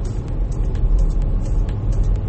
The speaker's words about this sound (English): It's like so much fucking traffic